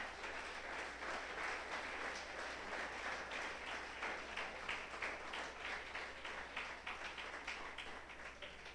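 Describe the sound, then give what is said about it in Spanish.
An audience at a Spanish-language church sermon applauds with dense, even clapping that holds steady and unbroken throughout, with no voices rising above it. “Dale ese aplauso al Rey”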